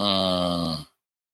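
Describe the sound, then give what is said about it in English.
A single short, low human groan: a steady voiced drone lasting under a second that cuts off into silence. “I want to hear why that groan, what that was all about”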